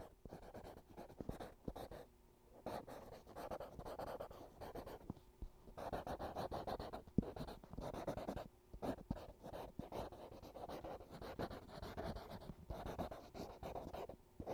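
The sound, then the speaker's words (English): A pen scratches across the pages of a notebook, making many faint, irregular strokes and scribbles that continue with brief pauses throughout, quiet and close. “And stretching out in the window seat with a notebook and pen, you begin to write about your experiences.”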